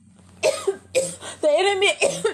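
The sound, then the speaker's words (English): A man's harsh, partly voiced coughs break into his preaching, though he says he is not sick. A few sharp bursts are spread across the moment, with voiced sounds mixed in. “He's trying to make me cough and I'm not even sick.”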